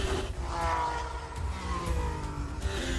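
Formula 1 race cars, including a Toro Rosso being chased by a rival trying to overtake: high, whining engine tones rise and fall as the cars rev and pass, at a steady moderate level.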